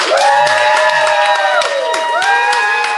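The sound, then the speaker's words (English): A studio audience cheering and applauding: loud, continuous whoops and shouts mixed with clapping that fill the whole stretch without a break. “Oh, and by the way, inside the windowless cabin, we now have a live studio audience, so to speak.”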